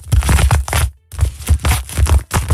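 An object is squeezed by hand, giving a run of crunchy, crackling bursts in an uneven rhythm. The bursts break off for a brief pause partway through, then resume.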